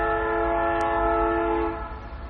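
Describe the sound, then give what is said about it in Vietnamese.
A passing train sounds its horn in a steady, sustained chord-like blast that holds loud and even, then fades away near the end. “Các vị biết cái đó là tiếng còi xe lửa. Nó đi ngang cái tiếng còi xe lửa.”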